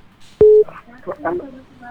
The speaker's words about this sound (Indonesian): Iya, terputus. Silakan dicoba kembali pendengar untuk yang ingin bergabung.